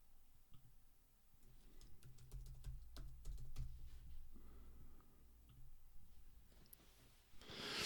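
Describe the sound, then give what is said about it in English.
Typing on a computer keyboard to enter a repository name: a quick run of many faint key clicks, then quieter scattered taps and a soft rustle at the end. “Please type in the name of the repository.”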